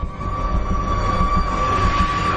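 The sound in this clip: A passenger train carriage rolls along the rails in a steady, continuous rumble, with a thin high-pitched metallic whine held throughout and no voices.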